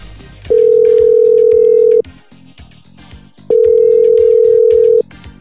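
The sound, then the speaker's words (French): Telephone ringback tone while calling someone from Martinique: two long, steady, mid-pitched tones with a pause between them, over faint background sound. “J'espère qu'elle va décrocher.”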